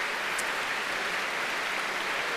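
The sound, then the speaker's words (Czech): Audience applause at a classical concert: a dense, steady wash of clapping that holds at an even level throughout, with no voices. “Potlesk ještě stále neukončil první část.”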